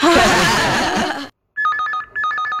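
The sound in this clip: Mobile phone SMS alert: a bright electronic melodic chime in two short repeated phrases, following a burst of dense, loud noise.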